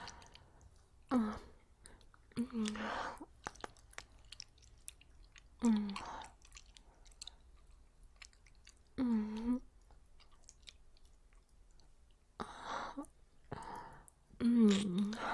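Licking and tasting mouth sounds: several separate bursts of wet, smacking lip and tongue noises, each with a soft voiced hum, spaced between quiet stretches.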